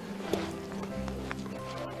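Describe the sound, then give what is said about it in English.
Hoofbeats of young, inexperienced horses running around close by, a steady stream of many dull thuds and clops, with a person talking over them throughout. “when you got horses running around like this up close and they're first time out here”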